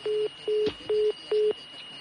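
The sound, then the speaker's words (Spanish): A phone-in caller's line connecting on a radio call-in show: four evenly spaced, low-pitched tone pulses of equal length over a steady hum and line hiss. “Antes de ir a la Seba, vamos con otra llamada.”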